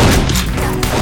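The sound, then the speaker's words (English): Revolver fire from a Remington comes as a dense, loud burst of booming shots that blend into one continuous roar without clear separate reports. “so he waited until a whole flurry of shots rang out before leveling the Remington and squeezing off two swift shots.”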